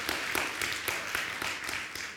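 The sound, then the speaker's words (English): An audience claps its hands in praise during a church service, a steady rhythmic clapping of roughly four claps per second, fairly faint and continuous, with no voices over it. “Give him a hand clap of praise.”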